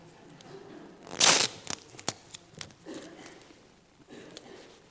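Adhesive tape being fumbled with and peeled in a church, one loud ripping burst followed by several smaller crackling pulls and rustles over low background noise.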